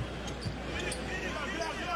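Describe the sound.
Basketball dribbled on the court during an NBA game, Boston Celtics at Toronto Raptors, with a few sharp bounces under ongoing crowd noise and a commentator talking.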